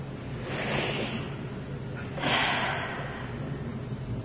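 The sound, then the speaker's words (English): A big deep breath taken on request, heard as two breathy, airy rushes of air a little over a second apart, soft and breathy with no voice over them. “Come on, a big deep breath.”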